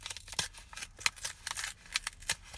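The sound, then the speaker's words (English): A birthday card is opened with many quick, crisp paper rustles and small tearing crackles in an uneven rhythm. The sounds are quiet, with no talking. “Okay, I'm opening my birthday card that has my name on it.”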